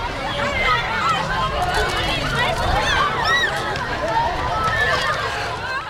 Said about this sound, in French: Beaucoup de schtroumpfs. Tout le monde court de partout. Les terminales ont pris le pouvoir. Les terminales ont pris le pouvoir dans la cour.